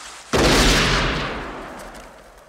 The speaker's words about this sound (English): So then he says, ain't life a bitch, and shoots himself.